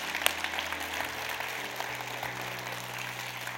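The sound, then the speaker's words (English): A church audience applauds, welcoming new members, with a soft, even wash of clapping held at a constant low level for a few seconds and no voices standing out above it. “Hey, can we put our hands together and welcome some new people into God's family today?”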